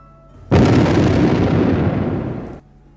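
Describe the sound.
Explosions bursting from the ground make one loud, dense roaring blast. It starts abruptly, holds for about two seconds, fades slightly, then cuts off, with no voices.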